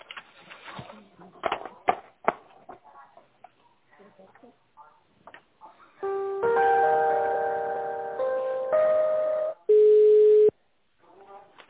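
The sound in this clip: Telephone line tones play while a call is transferred, following a stretch of talk. Sustained layered tones start, break briefly and resume, then one shorter, pure steady tone sounds before it cuts off.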